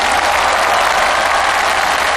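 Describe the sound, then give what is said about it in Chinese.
Sustained applause from a live audience at a team stage performance competition, a dense, unbroken patter of many hands that holds steady from start to finish. “再次掌声感谢。”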